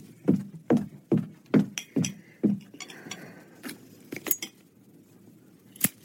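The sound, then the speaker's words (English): Plates and forks being fetched for cutting a cake with candles, heard as a series of bright clinks and clatters of cutlery and dishes, several sharp knocks early on and sparser chinks later. “Hey, would you like to help me cut the cake, Bug? Yeah. I'll go fetch the plates and forks.”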